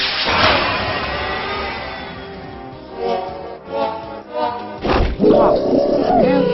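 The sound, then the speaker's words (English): Roar attack effect of the creature Pantherbit in a video game battle, a loud, gritty, sustained rumbling roar that swells in several surging bursts toward the end. “Foe Pantherbit used Roar. Foe Pantherbit's strength was increased by 1 stage.”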